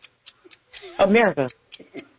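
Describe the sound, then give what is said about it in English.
A game clock ticks in a quick, steady rhythm during a quiz game, with a voice speaking over the ticks midway through. “Start the clock.”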